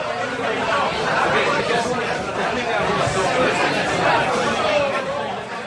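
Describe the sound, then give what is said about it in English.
Loud, steady babble fills an average crowded bar, with many overlapping voices blending into one continuous roar where no single speaker stands out. “Okay, so that's the sound of essentially being inside the bar.”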